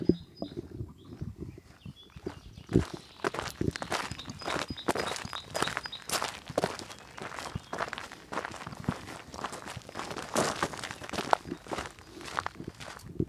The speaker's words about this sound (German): Jetzt sind wir hier wieder auf einem größeren Weg. Schotter. Ja. Man hört es jetzt, glaube ich, auch an den Füßen.